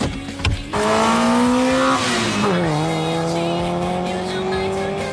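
A car engine revs hard as the car accelerates to overtake, a loud, sustained whine whose pitch climbs, dips briefly, then climbs again.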